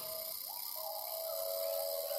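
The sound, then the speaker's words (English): Cicadas buzz in a rainforest as a dense, steady high-pitched drone that holds through the whole stretch, with a clear sustained whistling tone running lower down. “This buzzing is a cicada.”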